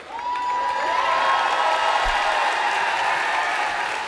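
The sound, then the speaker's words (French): A festival audience cheers, claps and shouts for the crew during an evening show, a dense, steady roar of crowd noise that holds at a constant loudness for about four seconds. “Je voudrais que vous fassiez un maximum de bruit pour l'équipe qui nous a accueillis sur ce magnifique festival ce soir.”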